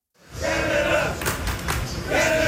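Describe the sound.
Canadian soccer fans chant in the streets of downtown Houston before a World Cup round-of-16 match against Morocco. A loud, sustained crowd roar carries unison voices, with a few dull thumps breaking through.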